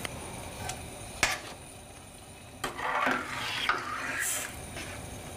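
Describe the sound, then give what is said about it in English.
A spoon scrapes and stirs a mixture in a pot, with a few sharp metallic clicks and knocks cutting through the steady scraping, and no voices. “Now we'll just mix this all together, put the lid on it, bring it to a simmer, and it's ready.”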